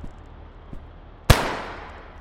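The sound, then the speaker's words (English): A single gunshot cracks out as a gun is fired at a target during shooting practice, one sharp loud report with a decaying tail over a faint, steady background. “Now come on, take this. Aim and shoot, okay?”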